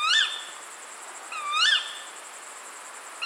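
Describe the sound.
Loud, aggressive moaning and squeaking calls of a female bird: two harsh, squealing bursts with wavering, high-pitched harmonics, separated by a short pause, heard alone over faint hiss.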